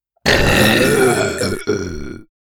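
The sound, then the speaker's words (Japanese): Loud, drawn-out burping from a group of people, a rough, low, grating belch sound running for about two seconds with one brief break near the end, then cutting off abruptly. “その後はマシンガンみたいに8人でゲップしまくります。”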